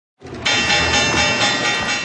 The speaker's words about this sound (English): The opening bell